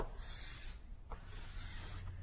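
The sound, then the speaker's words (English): A diagram is sketched by hand: a faint, continuous scratchy rubbing of a drawing tool across a surface lasting about two seconds, with no voices. “So I want to sketch that again here.”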